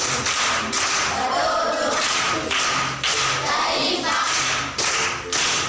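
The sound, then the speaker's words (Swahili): Pupils at a primary school give patterned group clapping as applause for an aunt. Sharp hand claps and thuds fall in a repeated beat with short gaps between the bursts, loud and steady. “Makofi kwa shangazi.”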